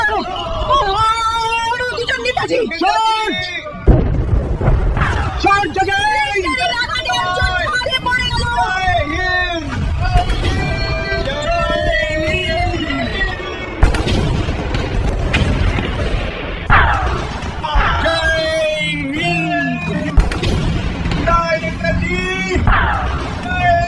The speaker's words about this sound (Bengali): নেতাজি, শত্রুপক্ষের বোমার আঘাতে দুটো লুটিয়ে পড়লো।